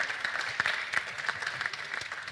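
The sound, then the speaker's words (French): Audience applause at a pitch competition event, greeting a team member who made the visuals; moderate clapping with many individual claps standing out, uneven and slightly fading toward the end. “on peut l'applaudir s'il vous plaît”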